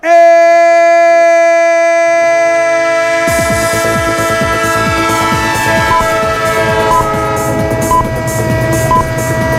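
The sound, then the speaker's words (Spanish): A train sound effect: a loud, sustained chord-like horn tone opens alone. About three seconds in, a rhythmic clatter of wheels over rail joints joins and runs under the held horn to the end. “¡El tren de Radio Estadio! El tren de Onda Cero, el tren de la quinta jornada en Primera División.”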